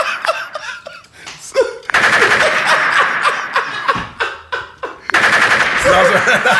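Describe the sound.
Automatic gunfire in a video game: sporadic sharp shots at first, then two long, loud stretches of rapid, dense firing in quick succession.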